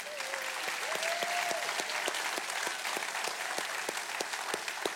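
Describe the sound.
A church audience applauds during a morning service celebrating a former senior pastor. Many hands clap in a full, steady roar, and sharp individual claps stand out throughout.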